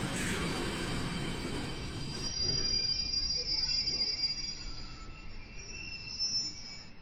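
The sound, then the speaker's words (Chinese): Doraemon's model train pulling into a station platform at a research institute's exit building: a steady rolling rumble with a shrill, sustained squeal of wheels on rail running through most of the passage. “过了大概半个多小时，模型车就开到了研究所出口建筑的站台。”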